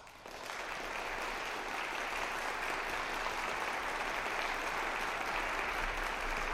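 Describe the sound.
Applause from a concert audience welcomes a string quartet of two violinists, a violist and a double bass player to the stage: a dense, even wash of clapping that starts suddenly and holds steady throughout.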